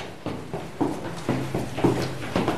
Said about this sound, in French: Alors on descend encore quelques marches,